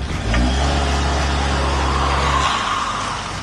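A car engine revs hard in reverse in a car park as the front wheels spin while the back wheels stay frozen, giving a loud, steady low drone that drops away near the end.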